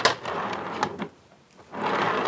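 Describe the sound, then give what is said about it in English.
Sound effect of a jet-propelled automatic elevator: a loud, broad rushing roar that drops out briefly midway, then surges back at full strength. “Now, there's a novelty. An elevator with jet propulsion.”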